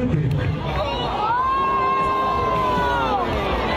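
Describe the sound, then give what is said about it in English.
Jeers from a crowd of about 13,500 fans at a game: a steady, dense roar of many voices, with one sustained shouted tone rising above the din. “13,500 fans that were at the game. And I have the clip, but I don't even know if you can hear this.”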